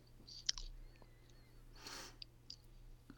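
Faint crunching of salt and vinegar crisps being eaten, with scattered sharp little clicks and crunches in short bursts and a soft rustling swell midway.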